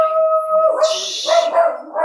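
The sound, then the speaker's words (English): A dog vocalises: a steady, high tonal whine holds first, then gives way to rougher, noisier yelps and barks, loud and alone. “See, there's his dog.”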